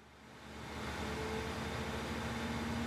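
Car engine as the vehicle sets off for the station: a low, steady motor hum that swells over the first second, then holds at a constant level with a faint tonal whine.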